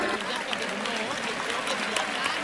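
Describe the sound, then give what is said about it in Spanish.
The crowd at a bullring in Almería gives an ovation to the three bullfighters: steady, dense clapping throughout with a speaking voice over it. “Pues lo que anticipábamos está ocurriendo ahora, esa ovación del público a la terna actuante.”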